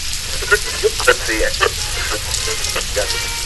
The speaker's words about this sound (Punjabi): ਇਹ ਬਾਰਿਸ਼ ਫਿਰ ਸ਼ੁਰੂ ਹੋ ਗਈ ਹੈ।